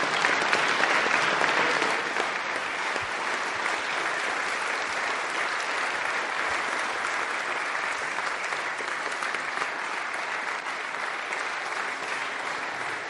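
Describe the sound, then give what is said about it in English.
An audience of a couple of hundred people applauding a guest: dense, steady clapping that continues throughout, slightly louder at the start before holding level. “I'm sure it all seems, it must be a little bit sedate, you know, you come out to a couple of hundred people clapping instead of 35,000”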